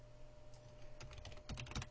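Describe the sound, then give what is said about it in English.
Faint typing of a URL on a computer keyboard: a few quick keystroke clicks in the second half over a steady low hum. “Make sure you type in your URLs properly. It always helps.”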